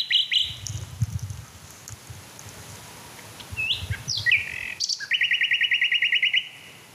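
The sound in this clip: A male songbird sings a few short, sharp chirps, then a fast, high, repeated trill at the end, over faint background noise.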